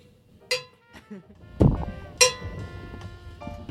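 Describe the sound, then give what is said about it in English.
Sharp cracks and knocks as the edge of a glued-down countertop is broken off, a few hard impacts with brief clinking, under people talking. “It's coming. No, it's cracking.”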